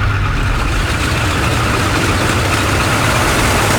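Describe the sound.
A car engine runs steadily as a low, even rumble that holds for the whole moment with no talk over it. The car's occupants had noticed a bad smell.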